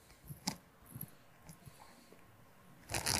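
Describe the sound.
A necklace rubbing against a microphone makes faint, scratchy rustles and small clicks at irregular moments, ending in a louder burst of crackling friction.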